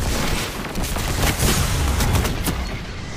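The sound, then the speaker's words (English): Gunfire in a video game: a dense, loud barrage of shots that keeps going with no break, the cracks running together too closely to count. “Who's shooting at me? What the heck? I got shot in midair!”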